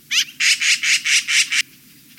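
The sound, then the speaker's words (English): A yellow-billed magpie calls in a rapid series of harsh, raspy notes, then pauses briefly before one more call starts. “Yellow-billed magpies, relatives of jays and crows, are unmistakable.”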